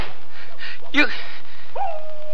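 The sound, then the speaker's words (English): A single sharp gunshot effect from a radio western drama, a shot fired at a person, stands out as one brief bang against a low, steady background. “You fired at me. You could have hit me.”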